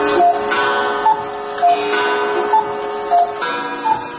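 Clocks tick in a home collection of dozens of large, small, antique and modern timepieces. Regular, moderately quiet ticks alternate between two tones over a faint sustained ringing hum.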